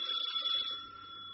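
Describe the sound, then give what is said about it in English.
A bell rings in a household, waiting for someone to answer it: a faint, continuous high-pitched ring lasting just over a second, easing slightly toward the end. “Is someone going to answer that bell?”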